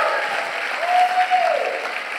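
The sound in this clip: Church audience applauding: a steady, dense wash of clapping that holds at an even level for the whole stretch.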